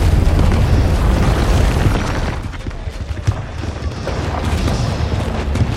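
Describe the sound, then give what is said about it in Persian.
Ships in the Golden Horn harbour at Galata come under bombardment: heavy booms and blasts overlap into a dense, continuous roar, with no clear gaps between explosions. “بمباران صدای سربازان محمد را که در جنگل سعی می کردند راه را برای کشتی ها باز کنند می پوشند.”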